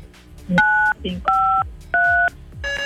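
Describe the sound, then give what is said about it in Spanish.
Telephone keypad dialing tones: four steady two-pitch beeps in even succession, the last cut short, with brief speech between them. “A ver, marca 953. 95, yo le marqué 5. 953.”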